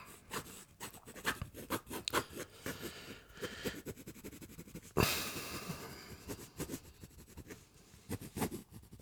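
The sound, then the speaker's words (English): Pencil sketching quickly on paper during a fast, loose portrait study from a live sitter: rapid, scratchy strokes come in irregular bursts, mostly faint, with one sharper, louder stroke midway. No one speaks. “Now I'm gonna do some very quick sketches, just fast, loose, energetic.”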